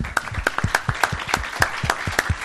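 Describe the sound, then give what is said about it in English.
Audience applause for a panel discussion at a CSIS event. Many distinct hand claps come in an uneven, loose rhythm, sounding like a modest crowd rather than a dense roar. “I would like to thank the panel for their comments today and give them a round of applause.”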